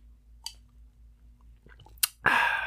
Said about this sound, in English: I took a drink of it, and then I was like, I'm just gonna take another drink and you guys can just hear how fucking obnoxious this is.